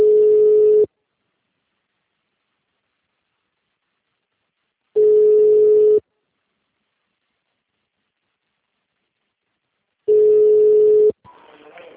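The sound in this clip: Ringback tone while placing a phone call: three steady, mid-pitched one-second tones, repeating about every five seconds with silence between, then a brief muffled noise at the end.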